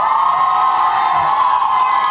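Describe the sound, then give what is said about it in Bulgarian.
Loud crowd cheering and applause greet a speaker introduced at a high school graduation ceremony. The sound is a dense, continuous roar of shouts and clapping that stays level throughout. “Посрещнете господин Тодор Тодоров с аплодисменти.”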